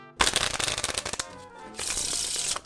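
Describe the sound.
Tarot cards being shuffled for fortune-telling: a rapid, crackling flutter of riffled cards in two dense bursts, separated by a short lull.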